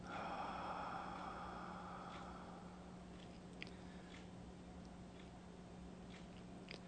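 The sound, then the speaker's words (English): A long, deep breath in at the close of a guided practice: a soft, airy rush lasting a couple of seconds that slowly fades. A steady low hum runs underneath, with a few faint clicks afterwards. “we take a deep breath in”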